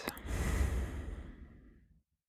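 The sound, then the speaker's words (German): Deep breathing during a guided relaxation exercise: one long, airy breath swells and then fades over about two seconds, with no talking. “Tief ein. Und aus.”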